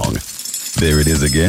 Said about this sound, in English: What's that sound? That's the sound of Downy Unstoppable Scent Beads going into your washing machine and giving your clothes freshness that lasts